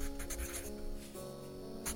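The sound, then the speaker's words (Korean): Writing on paper inside a quiet shop, faint scratchy strokes coming in short bursts over a steady low hum. “가게 안을 쓱 둘러보면서 부족한 것들을 종이에 적기 시작했다.”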